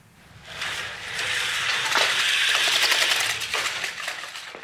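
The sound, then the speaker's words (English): Window blinds being drawn in a video scene give a continuous rattling, ratcheting swish that swells and lasts about three seconds before tapering off, with no talk. “what he's doing is he's drawing the blinds and he's revealing that there is a man standing out there”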